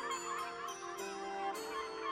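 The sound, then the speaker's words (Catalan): Seagull calling: a few faint, honking harmonic cries, fairly level in pitch, repeating over about two seconds. “Sents la gavina cantar?”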